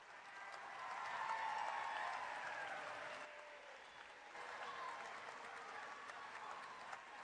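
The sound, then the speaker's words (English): An audience applauds to welcome a bishop with steady, fairly faint clapping that peaks early, dips briefly past the midpoint and then carries on evenly to the end. “So everyone put your hands together, please, and welcome the wonderful bishop who is, yes, still our bishop, Bishop David Kagan.”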